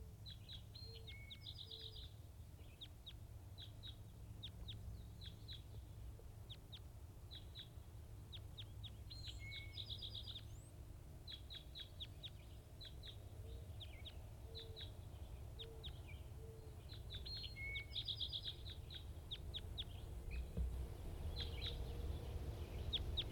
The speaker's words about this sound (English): Recording wild birds.